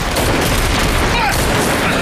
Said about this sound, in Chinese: 开火！